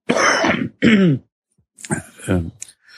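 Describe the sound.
A person with a mild cold coughing and clearing the throat: a few harsh, rough bursts separated by short silent gaps.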